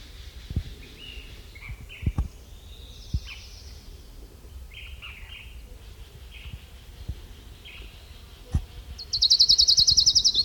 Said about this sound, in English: Orange Crown Warbler number 5.